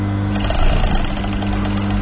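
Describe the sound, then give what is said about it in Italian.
Sewing machine stitching during a lesson on adjusting thread tension: a fast, continuous, buzzy mechanical rattle over a steady low motor hum, running evenly throughout. “la macchina inizia a cucire. Vai, vai, vieni avanti. Piano, devi imparare a regolare bene la tensione del filo.”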